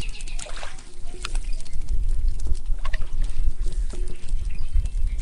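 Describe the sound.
Canoe paddling on a forest creek: repeated soft paddle splashes and trickling water in an uneven rhythm, moderately loud throughout.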